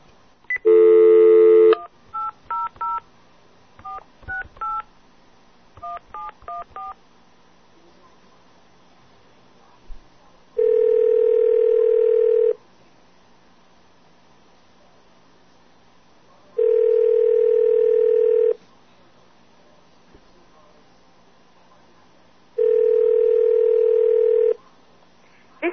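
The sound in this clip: Touch-tone telephone dialing on a call to a consumer relations line: a short opening tone, then a quick run of dual-pitched keypad beeps, followed by three long, evenly spaced ringing tones separated by silence.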